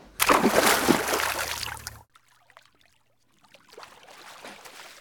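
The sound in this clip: Splashing from someone swimming lengths in a pool lane: about two seconds of loud, choppy churning water, then quieter scattered drips and sloshes.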